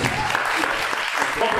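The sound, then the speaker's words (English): Audience applause at an environment-themed fashion runway show, a fairly soft, continuous patter of clapping with voices heard over it throughout. “Let's give peace to the environment, okay? Let's also applaud.”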